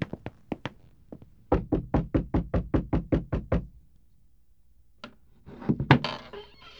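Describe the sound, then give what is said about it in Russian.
Knocking on the door of a large house: a few scattered knocks, then a quick, even run of many sharp raps, followed after a pause by a few softer noises. “Стучи, стучи быстренько.”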